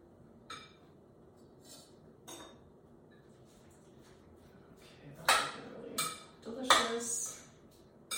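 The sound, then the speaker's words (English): A spoon scrapes and clinks against a bowl while scooping chunky homemade pico de gallo salsa, giving a few soft scrapes and then a louder run of sharp clinks near the end. “So then that's what I'll do is I'll just take a spoon, and then if you scoop it out, you can see it just comes out in these little chunks.”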